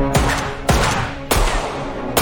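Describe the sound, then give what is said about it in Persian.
Four sharp gunshots ring out one at a time at uneven intervals. Each is a loud crack with a short, booming tail, and there is quiet between the shots. “اون صدای شلیک تفنگ بود؟”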